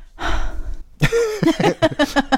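Heavy breathing from a woman: a long, breathy exhale, then a short pause and a run of short, voiced, gasping breaths in a quick, uneven rhythm, fairly loud and alone.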